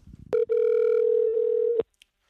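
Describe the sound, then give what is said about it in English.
Telephone dial tone on a call about to be dialed: a loud, steady hum held for about a second and a half, then abruptly cut off, with short clicks before and after. “go ahead and dial now”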